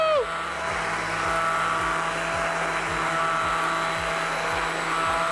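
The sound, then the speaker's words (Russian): A kitchen blender runs continuously while food is blended, giving a steady, fairly loud whirring motor drone with a faint regular pulsing underneath. “И также еще раз блендерю.”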